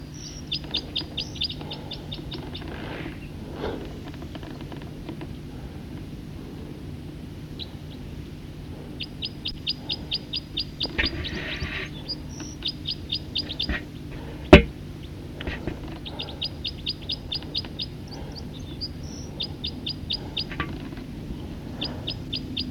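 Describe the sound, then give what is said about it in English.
Bird song rings out in many short, rapid, high trills, grouped into repeated phrases with pauses between them over a low, steady background hum, with one sharp click midway. “recording the song of a bird.”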